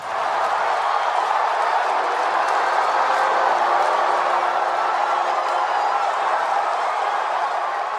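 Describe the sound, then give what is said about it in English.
Steady rain falling in Western Washington, a dense, even hiss of many drops that stays loud and constant throughout without pause. “That's right. That's the sound of Western Washington welcoming the rain after a few weeks of horrid smoke that reminded some of us of airport smoking lounges.”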